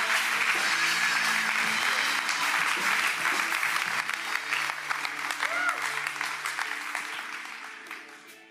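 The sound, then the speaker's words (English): Warm applause from a church audience welcoming a speaker to the front, dense, steady clapping that holds strong for several seconds and then gradually fades away toward the end. “Let's put our hands together and welcome Ian McCormack.”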